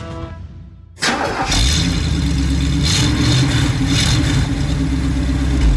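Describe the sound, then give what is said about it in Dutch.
A V8 car engine rated at 231 hp starts with an abrupt burst, then runs loud and steady with a deep, even rumble for about five seconds. “een mooie V8 met 231 pk's onder de kap. Die willen we natuurlijk even horen ook.”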